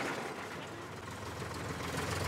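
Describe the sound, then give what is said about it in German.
A tractor runs with its power take-off engaged to drive an old potato harvester. The engine gives a steady, continuous low rumble with broad hiss and no clear changes. “Zapfwelle mal kommen lassen. Da läuft das schon an”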